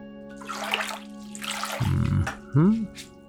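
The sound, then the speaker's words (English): Water splashes and runs while a person is being washed, a steady rushing wash of sound with a voice speaking briefly over it near the end. “Here, let's wash that out, too.”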